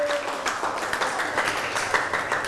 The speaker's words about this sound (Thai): ลูกปรบมือให้เพื่อน